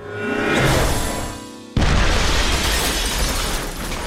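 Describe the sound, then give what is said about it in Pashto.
An explosion blasts through a chemistry laboratory. A noisy, swelling build-up breaks off into a sudden loud burst, and a dense roaring rumble carries on steadily to the end. “خو دا چې فادي د کیمیاوي موادو په ترکیب نه پوهېدو لابراتوار ته یې چاودنه ورکړه.”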